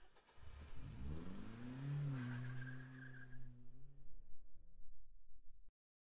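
A car engine revs and drives off, its mid-pitched drone joined by a tonal whine and squeal-like streaks. The sound holds steady, then fluctuates and fades before stopping abruptly into silence.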